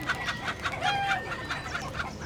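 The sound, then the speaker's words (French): Chickens clucking in their henhouse, many short, regular clucks repeating in a quick, steady rhythm, clear and alone without any talk. “Puis, je vais voir les poules dans leur poulailler.”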